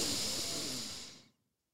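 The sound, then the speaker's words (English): One long, soft breath during a card-reading meditation, an even airy hiss lasting over a second before tapering off into silence. “Every time we pull a card, we have to close our eyes, okay? And we have to breathe in goodness and breathe out the shit. You ready? Okay. Close our eyes, breathe in,”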